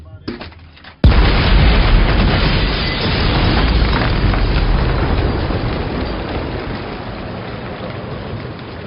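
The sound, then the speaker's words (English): A shed explodes in a film scene: after a brief, low lead-in, a sudden loud blast breaks into a long, dense, roaring rumble that slowly eases off but stays heavy to the end. “It's like we have to insert the clip again of the shed from the first film exploding.”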